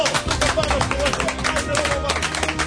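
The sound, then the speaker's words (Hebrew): Studio audience of a Hebrew quiz show clapping as they stand up, a dense, steady wash of applause mixed with crowd voices and chatter throughout. “תקומו, תקומו, תנו כפיים,”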